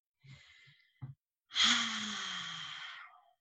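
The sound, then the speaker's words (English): A deep breath drawn in through the nose and pushed out through the mouth: a soft nasal inhale and a short sniff, then a long, loud, breathy exhale that gradually fades. “Just taking a deep breath in through the nose, out through the mouth.”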